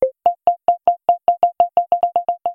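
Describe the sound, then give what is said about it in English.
Proximity app beeps: one lower opening tone, then a run of short, clean electronic boops on a single pitch that come steadily faster, alone and fairly loud. “sounds, which play faster boops as someone gets closer to you, and then switches to a higher note when they're within 6 feet.”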